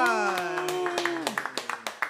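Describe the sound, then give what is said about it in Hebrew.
Audience clapping that begins under a held voiced tone, then turns into sharp, evenly spaced rhythmic claps through the second half. “ובואו נעשה כפיים”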